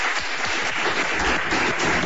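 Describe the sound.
A concert audience in Málaga applauds the band's drummer, a dense, steady wash of clapping from many hands that holds evenly throughout without talk.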